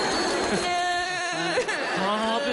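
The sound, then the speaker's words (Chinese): A woman who is ill cries loudly in a wavering, wailing voice. Her sobbing pitch rises and falls continuously throughout. “不哭，咱们病马上就会好的啊！不哭啊！ 我不是哭，我生病。 那是哭什么？ 我是哭”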